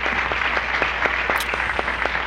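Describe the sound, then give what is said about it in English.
Applause at a diplomatic ceremony: a crowd claps in a dense, steady wash of many overlapping claps, holding an even loudness throughout. “Everybody's clapping. Everybody's cordial.”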